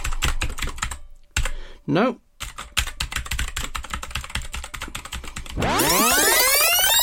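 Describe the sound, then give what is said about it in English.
Rapid typing on a computer keyboard while someone tries many keywords to crack a cipher: dense, uneven keystroke clicks that run throughout, with a brief tone near the start and a loud rising electronic sweep near the end. “typed in about 100 different possible keywords, none of which worked. I've got sore fingers now.”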